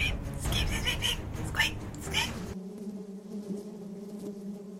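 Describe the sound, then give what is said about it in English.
Bees buzzing in a dense, droning swarm. A voice is heard over the first half, then a steadier, lower hum continues alone. “No. Not the bees. Not the bees!”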